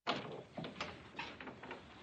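Knocking on a dormitory door: a few quick, fairly faint raps in an uneven rhythm, with no voices.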